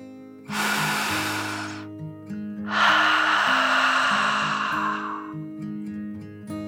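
A slow, deep breath, a shorter breathy inhale followed by a longer, fuller exhale, heard alone over soft sustained musical tones.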